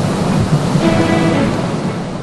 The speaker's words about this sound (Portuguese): Parte da parede desaba. Os enormes pedaços de gelo continuam a despencar. A queda forma ondas.